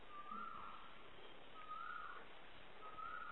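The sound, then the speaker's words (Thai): Bird calls at a place full of birds: three faint, repeated whistled notes spaced evenly apart over a soft, steady background, with no talking. “นี่ร้องอีกแล้วดูมันร้ายไหมร้องมันร้องมันเงียบเลยที่นี่นกเยอะนะลองฟังดูลองฟัง”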